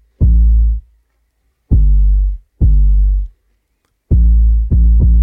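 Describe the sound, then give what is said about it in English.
Six deep, booming kick drum hits, tuned so each doubles as a low bass note, ring out with sustained pitched tails. The hits come in an uneven rhythm, the last two tightly spaced, with silence between the others. “You can tune the kick drum and it can be simultaneously fulfilling the goal of what your kick does, boom, boom, but also giving it like a bass note. So that's what we're hearing. It's one thing doing two things. I love that bass.”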